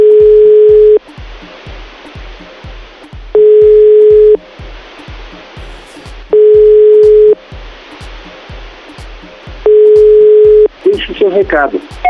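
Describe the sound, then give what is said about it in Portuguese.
A telephone ringback tone plays during a repeated call: four long, steady tones separated by quiet pauses over a faint, regular low ticking. A brief burst of a different sound follows at the end. “Vamos tentar ligar de novo, vai? Mais uma vez.”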